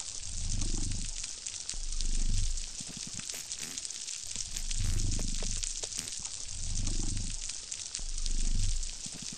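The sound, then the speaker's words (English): Snapping shrimp on a coral reef fill the water with dense, continuous crackling, like bacon frying. Recurring low, swelling whoops rise and fade beneath the steady crackle. “That is the sound of a coral reef. Oh, is it? Oh, okay. Is the sound of shrimps. Apparently it sounds like frying bacon.”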